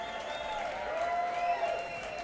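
Faint audience applause at the close of a live show, cheering a production company. The clapping is a soft, even wash of sound with no talk.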